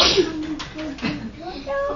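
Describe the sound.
A person sneezes once, a sharp, brief burst right at the start, followed by faint low voices murmuring in the background.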